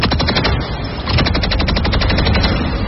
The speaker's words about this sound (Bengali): দুজন গার্ড শূন্যে ফায়ার করে জনতাকে ধমক দিল।